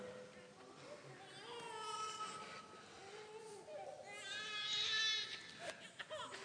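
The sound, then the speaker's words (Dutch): A young child cries in the room in wavering, high-pitched wails, rising and fading and growing loudest toward the end, while someone keeps talking. “Er wordt hier een beetje gehuild, dus ik zal er eventjes aandacht aan geven.”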